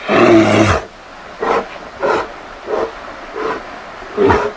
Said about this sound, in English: Sounds of Alaska from KRUA 88.1 Anchorage, featuring grizzly bears.